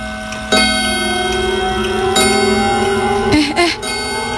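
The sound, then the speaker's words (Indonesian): Clock ticking, heard as a few sharp ticks over a steady tonal background. “Itu jamnya kayak makin keras nggak sih?”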